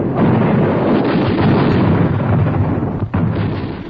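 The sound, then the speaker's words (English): Machine gun fired in a demonstration for soldiers in the field: a dense, continuous roar of rapid fire lasting about four seconds, loud throughout, with a brief dip near the end. “One of my employees could operate the gun in action, showing the men in the field just how this machine gun operates in action.”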